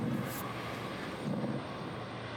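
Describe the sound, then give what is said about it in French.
An airplane carrying the pope lands at Metz with a steady, broad roar of engine and rushing air that swells slightly midway, with no voices. “cet avion qui transporte le pape Léon XIV vient de se poser à Metz”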